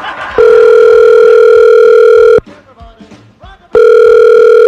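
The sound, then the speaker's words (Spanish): An outgoing telephone call rings with two loud, long, steady buzzing tones separated by a quieter pause. “Vamos a marcarle a tu pareja”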